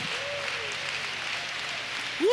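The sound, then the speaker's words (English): A church audience claps their hands while seated, a dense, steady wash of applause that holds throughout, with voices mixed in and a rising vocal cry at the very end. “Can you clap your hands and glorify the Lord as you're seated in Jesus' name?”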